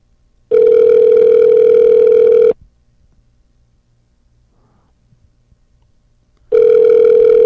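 Ringback tone of an unanswered outgoing phone call: a loud, steady electronic tone of about two seconds, then roughly four seconds of silence before the next tone starts.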